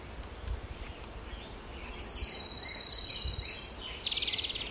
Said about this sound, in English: Orange Crown Warbler also singing.